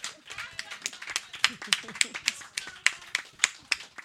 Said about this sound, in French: Merveilleux tout le monde, on s'applaudit!